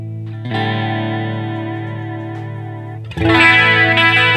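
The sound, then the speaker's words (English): Electric guitar run through an extreme chorus modulation effect: a sustained chord wavers and shimmers with a slow, wobbling pitch sway, then a second, brighter chord is struck loudly near the end. “Other things we can add, this is called a chorus.”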